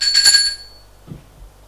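A doorbell rings at Julien's home at 8:30 in the morning. It gives a bright, high, metallic ring for about half a second, then quiet follows.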